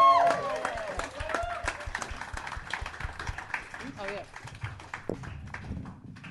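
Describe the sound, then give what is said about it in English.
A television talk show studio audience applauds and cheers a guest with steady, dense clapping while voices carry over it. “The star of Growing Up Gracefully, please make some noise for Eliza Riley.”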